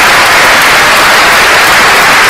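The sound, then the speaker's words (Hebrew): Audience applause for the Israel Symphony Orchestra Rishon LeZion, a very loud, dense wash of clapping hands that stays even from start to finish. “גבירותיי ורבותיי, מחיאות כפיים לתזמורת הסימפונית הישראלית ראשון לציון”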